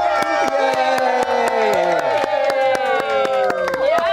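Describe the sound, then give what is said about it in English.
A studio audience claps and cheers loudly and steadily, with sharp hand claps repeating throughout. Sustained whooping and shouted voices sit over the claps, some of them gliding in pitch. “We have a studio audience. They can clap.”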